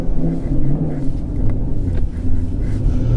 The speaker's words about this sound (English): here we are in the 2019 Chevrolet Camaro SS. I'm hoping to get a plug out of this. And we are at the Lime Rock pit straight right now.